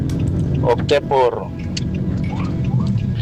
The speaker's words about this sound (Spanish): Es que voy conduciendo hacia la casa.